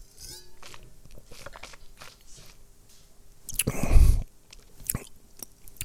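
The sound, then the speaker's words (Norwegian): A sip of Lugana white wine, heard as one loud, brief slurp in the middle of otherwise quiet, soft mouth sounds. “Og så er det da denne Lugana-vinen eh, som jeg nå skal drikke.”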